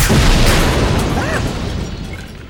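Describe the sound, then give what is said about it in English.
A heavy booming blast as a disruptor hits an exoskeleton, loud and broad from the start, then rumbling and slowly fading away over a couple of seconds. “immediately turned and blasted the exoskeleton with her disruptor.”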